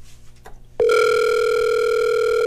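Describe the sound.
Telephone tone on an outgoing call to a contest winner: a sharp click, then a loud, steady electronic tone that holds unbroken to the end, after a faint murmur.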